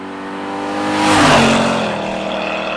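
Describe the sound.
A car accelerates with a loud engine roar that swells to a peak midway, then eases off as its tone drops, with a steady rumble underneath throughout.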